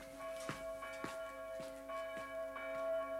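A church bell rings for a baptism as the infant is carried into church, sounding a steady series of resonant strikes with sustained, humming tones ringing between them and no voices.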